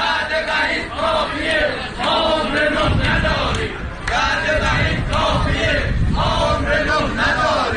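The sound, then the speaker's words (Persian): Retired telecom workers in Tabriz chant in protest as a loud crowd, their rhythmic voices rising in repeated unison phrases with short pauses between them. “صدای اعتراض بازنشستگان مخابرات تبریز در روز دوشنبه.”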